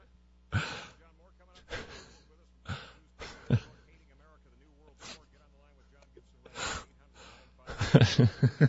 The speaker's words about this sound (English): Deep breath.